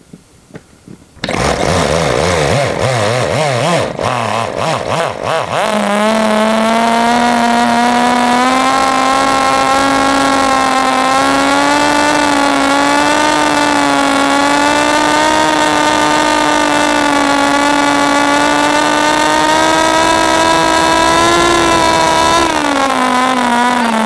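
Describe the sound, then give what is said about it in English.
A small engine with a flywheel, flooded just before, sputters through a few rough starting bursts, then catches and screams at steady full throttle for about fifteen seconds, dipping slightly at the end. “I got the tachometer ready. I have my little piece of reflective tape on the flywheel. I'm gonna start it up again and just go for the gold full throttle”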